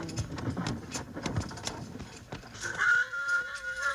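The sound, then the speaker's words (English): A horse whinnies from up in the rocks ahead on a western trail, a loud, wavering high-pitched call after a stretch of softer knocking and rustling. “Bill wants to listen, and you start bawling like a branded calf. Both of them have spotted something, Jingles. It's another horse somewhere. Sounds like it's up in those rocks ahead of us.”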